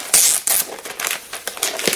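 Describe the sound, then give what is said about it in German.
Crinkling plastic as protective film is peeled from a laptop fully wrapped in foil: a run of sharp, papery crackles in irregular bursts, loudest at the start, then several smaller crinkles. “Ich suche im Moment den Anfang wo ich die Folie entfernen kann.”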